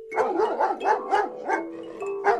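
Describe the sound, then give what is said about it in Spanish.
Wild dogs barking, a quick series of sharp, fairly high barks in an uneven rhythm with short gaps, clear and alone without voices. “Vigiladas en todo momento por un batallón de perros salvajes.”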